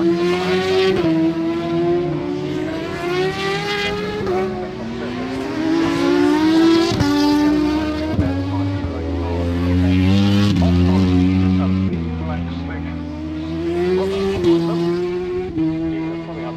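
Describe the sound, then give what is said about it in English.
Superbike engines wail during a World Superbike free practice session at Silverstone as bikes spin up exiting the tight Woodcote right-hander, loud and continuous, with harmonic whines repeatedly rising and falling through gear changes. “you can still see one or two of the bikes spinning up coming out of the Woodcote tight right hander.”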